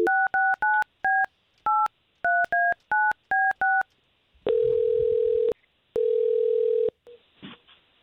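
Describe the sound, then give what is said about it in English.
Touch-tone dialing of a telephone number: a rapid series of short, even two-tone beeps, then two long, steady ringing tones with a pause between, all without voices. “Let's give her a call right now.”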